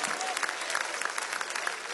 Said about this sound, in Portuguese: Bate palmas à glória.